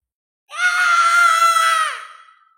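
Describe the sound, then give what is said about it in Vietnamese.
A strange creature struck by a lightning blast lets out a single piercing, harmonic scream. It holds steady for about a second and a half, then drops in pitch and fades. “Tiếng hét chói tai lan truyền từ giữa không trung tới.”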